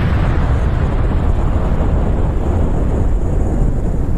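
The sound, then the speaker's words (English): A bomb explosion sound effect: a deep, loud roaring rumble that holds steady and sustained for the whole clip, with no distinct separate blasts and no talking. “I need one of those bombs like is going to fall on Iran tonight. There it is.”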